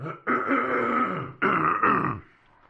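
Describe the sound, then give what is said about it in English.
A person clears their throat in a few rough, rasping bursts, one long and then shorter ones close together, loud and clear with no talk around them. “Let me clear the throat one more time.”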